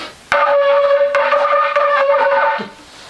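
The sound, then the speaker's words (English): A shofar, a ram's horn trumpet, blown by someone who is not a skilled player: one loud, sustained, brassy blast that wavers midway and then cuts off. “Now, the type of trumpet typically involved is called a ram's horn or a shofar. And while I'm not a great blower of it, they sort of sound like this.”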